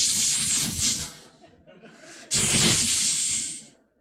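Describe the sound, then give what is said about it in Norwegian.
A voice imitates a snake's hiss with two drawn-out, breathy hisses. The first fades out, and after a short pause a louder one follows and trails away. “jeg ser for meg slangen, jeg. Har du hørt slangen? Den sier sånn, sss,”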